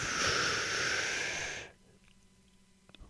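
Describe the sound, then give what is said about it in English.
A deep breath drawn in during a guided breathing exercise, a steady, loud, airy rush lasting under two seconds that cuts off abruptly into near silence. “So on the count of three, breathe deep and push it all the way to your diaphragm, the basement of your lungs. One, two, three. Breathe in,”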